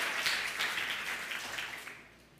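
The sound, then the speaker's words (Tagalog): A church audience applauds during a worship service, a faint wash of dense clapping that holds steady and then fades toward the end. “Palakpakan mo si Lord. Come on, come on.”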